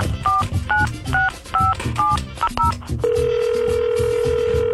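A touch-tone telephone is dialled to call a number: about seven short keypad tones in an uneven rhythm, the last two close together, then a steady unbroken tone that holds to the end.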